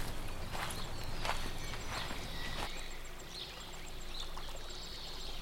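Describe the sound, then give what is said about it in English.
Footsteps of a player character walking forward in an audio-only video game, a few evenly spaced soft steps over a steady background wash of ambient noise. “All right. You continue walking forward.”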